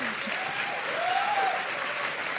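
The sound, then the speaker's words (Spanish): Audience applause honoring an award winner: dense, steady clapping that holds at an even, full level from start to finish. “Pues es un honor, un aplauso para ella, mejor podcaster femenina.”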